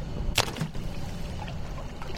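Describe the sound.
A brief rushing splash of water as a wave attenuation device is lowered by crane into the water, followed by low, steady watery background noise.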